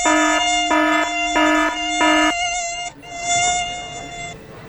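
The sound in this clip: Mosquito buzzing, loud and thin: four short, evenly spaced harmonic buzzes, then one longer continuous whine that fades out.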